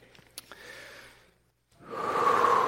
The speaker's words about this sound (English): Deep breath.